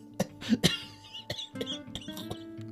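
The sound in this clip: A voice acts out a character's long coughing fit in a read-aloud story. Several sharp coughs come close together at first, then sparser, softer coughs and throaty sounds follow, fairly faint overall.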